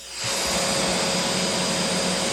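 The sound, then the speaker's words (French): Vacuum cleaner running, its motor quickly reaching a loud, steady whoosh with a constant high whine that holds evenly to the end. “C'est un bruit d'aspirateur. Et donc, il avait le bruit de l'aspirateur, il s'endormait avec ça.”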